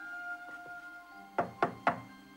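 Knocking on a door: two faint taps, then three firm, evenly spaced knocks in quick succession over steady humming tones.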